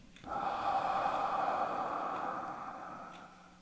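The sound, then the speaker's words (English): A deep breath in during a guided relaxation exercise while lying on a yoga mat, one long, steady, airy inhalation lasting about three seconds before tapering off. “let's go ahead and take a deep breath in.”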